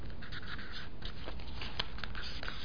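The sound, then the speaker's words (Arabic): A pen writes a question on a small paper card, making faint, scratchy strokes that run almost without pause. “هنكتب في كل قطعة ورقة من دي، هنجيب مثلا درس من الدروس ونطلع كل الاسئلة اللي في الدرس في 10 اسئلة 10 كروت، ونكتب السؤال وفي الظهر الاجابة. يبقى مثلا نكتب سؤال”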